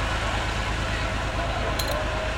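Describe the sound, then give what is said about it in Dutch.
A very old Volvo BM tractor's diesel engine idles at the start of a parade, a steady low chugging rumble with an even, rapid pulse that runs throughout. “Iemand heeft plaatsgenomen in de tractor. Dat is een tractor. Een hele oude. Is het? Volvo. BM.”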